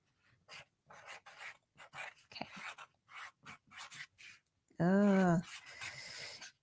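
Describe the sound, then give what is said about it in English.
Scratchy pen strokes as notes are written by hand during a nursing exam review, with many short rasping bursts in an irregular rhythm and a brief voice near the end. “I'm going to write it down.”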